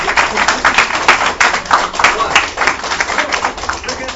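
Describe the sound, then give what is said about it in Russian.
An audience claps during a dance lesson, giving a dense, ragged patter of hand claps that keeps a moderate level throughout, with voices talking over it. “Аплодисменты давай.”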